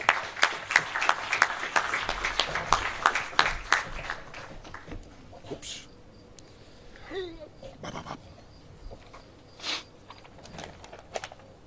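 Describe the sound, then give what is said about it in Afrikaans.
Audience applause welcoming a poet on stage at a poetry event: a few seconds of dense, lively clapping that thins out into scattered claps and quiet rustling. “die volgende digter, Arjen Duinker. Welkom. Applaus.”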